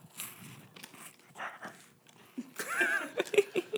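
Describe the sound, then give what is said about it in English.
Crackers crunch as they are chewed close to a microphone, with a few sharp, crisp bites clustered in the second half after softer mouth sounds. “If these are by the microphone. All right, that joke was unfunny 10 seconds ago. So it's not. He's doing cracker ASMR.”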